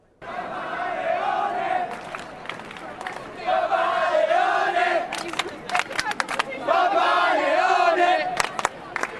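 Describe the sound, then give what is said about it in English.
A large crowd in St. Peter's Square cheers and chants in celebration after the papal conclave. Loud sung and shouted voices rise in repeated surges, with sharp bursts of clapping and shouts between the waves. “But in that friary column, there were seeds of great celebration, tears of joy, to match the seeds of celebration here in St. Peter's Square, as we can hear now.”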